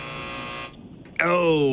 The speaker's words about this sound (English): Buzzer.